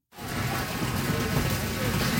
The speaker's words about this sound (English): It's been a summer full of destructive weather, like this hailstorm at a wedding in Medstead